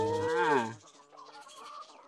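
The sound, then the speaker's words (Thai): Chickens cluck on a farm as people feed them: one loud, throaty call followed by quieter, choppy clucks. “ถ้ามาฟาร์มเป็ดไข่ไก่ไข่อารมณ์ดีเนี่ยน้องๆก็สามารถที่จะมาให้อาหารน้องไก่ได้น้องไก่ก็จะมาล้อมเราแบบนี้เลยนะครับ”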